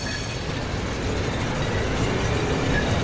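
A tram pulls away on a street outside a private house, making a steady rail rumble with faint wheel clatter that swells slightly as it goes.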